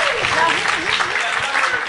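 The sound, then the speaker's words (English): Studio audience applauding a guess during a comedy game show: a short, loud burst of dense clapping with a voice over it. “What do you think, audience? The audience likes it.”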